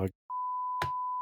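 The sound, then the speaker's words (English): A steady, pure electronic beep at a single pitch sounds for about a second, with a short burst of speech just before it and a voice briefly breaking in under the tone. “that's my beep of the week.”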